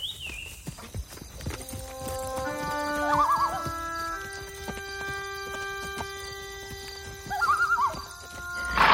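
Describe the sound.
A ridden horse's hooves clip-clop in a steady rhythm, and the horse whinnies twice over the footfalls. Sustained musical tones play underneath.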